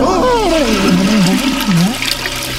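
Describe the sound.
A toilet flush sends loud rushing, gurgling water through the whole short burst, while a wavering, wailing voice glides up and down over it.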